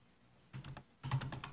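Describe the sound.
Typing on a computer keyboard: two quick, faint bursts of light clicking keystrokes separated by a short pause, with no voices.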